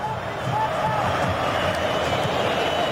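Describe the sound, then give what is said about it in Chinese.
A stadium crowd roars as Argentina fans cheer at a football match against England. It is a steady, dense roar of massed voices with men talking over it throughout. “这个时候我们看每一次大脚的解围都会赢得球迷的这种掌声和呐喊啊！ 这是阿根廷球迷的呐喊， 对对，一定是阿根廷球迷”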